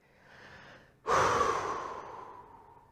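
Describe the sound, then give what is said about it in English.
A deep breath is heard alone: a soft, quiet inhale, then a sudden louder, breathy exhale that slowly fades away. “What are we going to do? Breathe.”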